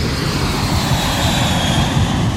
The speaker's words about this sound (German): Genau, wir fliegen auf Japan.